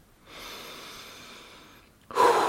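Deep, powerful belly breathing: one long, steady airy breath of about a second and a half, then a sharper, louder breath bursting in at the end.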